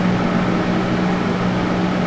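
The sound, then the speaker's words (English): An exhaust fan in a church bathroom gives off a loud, constant roar like a jet engine, a dense whoosh of air with a steady low hum underneath and no breaks. “that's the sound of the jet engine fan that is the bathroom fan at our church, and works great. It couldn't get louder”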